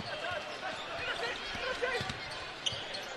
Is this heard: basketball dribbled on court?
yes